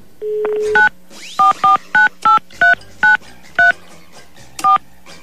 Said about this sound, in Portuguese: Deixa eu ligar para mais um aqui, pessoal. Deixa eu ligar para mais um.